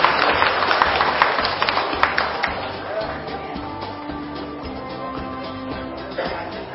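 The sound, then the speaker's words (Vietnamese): A monastery audience applauds retreat practitioners at the closing ceremony of a summer retreat. Brisk clapping fills the first half, then thins and fades while sustained musical tones carry on beneath. “Xin trân trọng một lần nữa xin toàn thể hậu chúng hãy cho một tràng vỗ tay để chúc mừng.”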